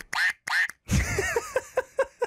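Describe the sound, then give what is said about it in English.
Quacking from a rubber squeeze toy as it is pressed: a couple of longer squawks, then a quick run of shorter, evenly spaced quacks, fairly loud and alone. “just like Claire's comment, it quacks when you press it”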